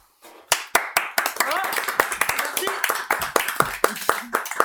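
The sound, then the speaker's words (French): Clapping from a small group of people, many sharp separate claps in an uneven rhythm, with a voice briefly audible among them. “Et puis comment ça applaudit ?”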